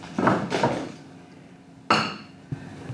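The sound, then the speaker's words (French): Metallic clatter of a frying pan set onto the right stovetop burner during a daily-living skills lesson for a visually impaired person: a few knocks and scrapes, one sharp clank, then a faint tap. “Tu peux déjà positionner la poêle sur la bonne plaque.”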